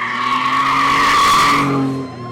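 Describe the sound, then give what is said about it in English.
Tires squeal as teens in a pickup truck burn out down the block during a street rally. A loud, sustained screech with a whining, ringing tone and engine roar holds for about two seconds, then fades. “jumped back from the curb when a gaggle of teens in a pickup truck burned out down the block.”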